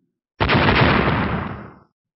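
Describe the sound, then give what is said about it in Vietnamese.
Powerful explosion sound effect, a sudden loud blast that begins sharply and holds as a dense roar before trailing off over about a second and a half, alone without talk. “Một tiếng nổ mạnh rung trời, vô số sóng khí hai màu vàng trắng trào lên khắp nơi”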